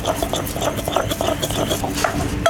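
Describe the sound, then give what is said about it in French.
Barbecue-grilled ingredients are worked in a mortar with a confit garlic clove and a little oil, giving continuous irregular scraping and soft tapping of the pestle against the bowl, steady and moderately loud, with no talk. “on va les mettre dans un mortier. Ouais, on va mettre une gousse d'ail confite. On rajoute un petit peu d'huile.”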